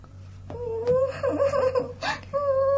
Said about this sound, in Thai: นี่ยีบูอย่าร้องไห้ได้มากรำคาญ